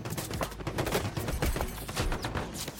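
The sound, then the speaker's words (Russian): Heavy gunfire rages in a war film battle scene as soldiers lay down dense fire, a continuous, loud crackle of overlapping automatic shots without pauses. “Бойцы ведут плотный огонь, Ларьков зигзагами бежит к углублению.”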